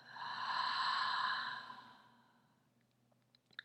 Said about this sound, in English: and exhale. Again, inhale and exhale.